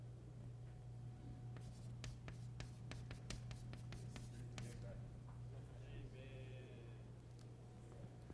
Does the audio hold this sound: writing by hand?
yes